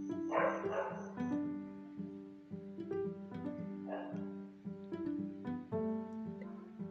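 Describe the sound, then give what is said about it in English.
Dogs barking outside: a few short, harsh bark bursts break out at intervals over a steady tonal background, with quieter gaps between them. “barking again. Can they hear me? Why are dogs like that?”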